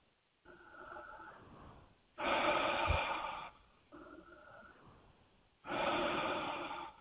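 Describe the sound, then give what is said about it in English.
Slow, deep human breathing: two full breath cycles, each a softer airy rush followed by a louder, stronger rush of air. The breaths are fairly faint, evenly paced and unaccompanied by talk. “I'm just going to invite you to take a couple of deep breaths with me.”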